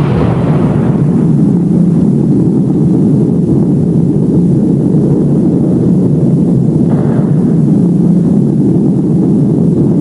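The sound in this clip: Missiles launch from submarine tubes with a deep, continuous roar that stays loud and steady for the whole stretch. The rumble is broad and heavy, with no single sharp blast standing apart.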